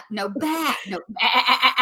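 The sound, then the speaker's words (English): A person imitates a sheep's bleat with a drawn-out vocal 'bah' of wavering pitch, followed by a second, brighter and quavering bleat. “You know what I love about this story is bah is a sheep.”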